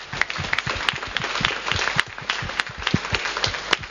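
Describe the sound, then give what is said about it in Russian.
Group of people in a workshop audience clapping for one another, an irregular patter of distinct, fairly light claps that continues steadily throughout. “Давайте похлопаем друг другу. Замечательно, молодцы, подготовились.”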